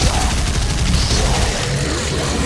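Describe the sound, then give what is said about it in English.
Gunfire from far away in a video game: a steady, dense crackle and rumble of shots runs without pause and stays fairly loud throughout, with no single shot standing apart. “there's a guy shooting stuff at me. I killed him. Shooting things from far away.”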